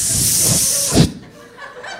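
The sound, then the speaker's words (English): A person hisses through the teeth as a vocal imitation, a loud, steady airy hiss held for about a second before stopping abruptly into near silence. “And then I hiss for 4 counts. I go,”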